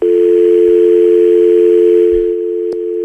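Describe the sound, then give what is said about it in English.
Telephone dial tone from a studio phone line, heard as a single loud, steady, continuous tone with no talk over it; a faint click comes shortly before the end. “Everything gets recorded just like you heard the dial tone there.”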